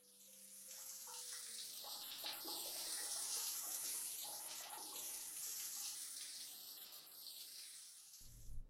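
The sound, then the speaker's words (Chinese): Water runs while someone takes a shower, a steady, faint hissing spray that holds evenly throughout. “妈妈先进去洗澡了。”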